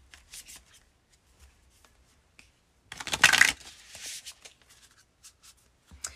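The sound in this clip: Oracle cards being shuffled: a dense, papery riffling burst in the middle, surrounded by sparse, soft clicks and taps of cards being handled, all fairly quiet.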